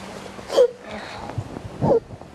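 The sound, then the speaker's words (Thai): A young child crying, two short whimpering, wailing bursts separated by a quieter pause, fairly loud and breathy. “หนูหยุดร้องให้หนูเก่งมากเลยไม่ต้องร้องไม่ต้อง”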